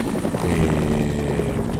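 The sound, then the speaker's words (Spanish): A helicopter drones steadily throughout, a loud, even low rotor rumble with a dense roar above it and no talking. “Está pidiendo pista el helicóptero.”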